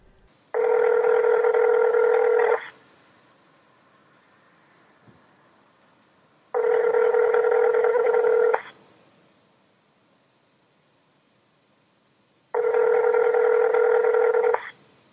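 Telephone line tones as a number is dialed on a mobile phone: three long, steady electronic tone bursts, each about two seconds, evenly spaced with quiet gaps between them and no talk.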